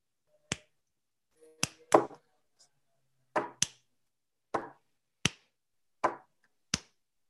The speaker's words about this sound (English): we're going to go slam those cupboards for you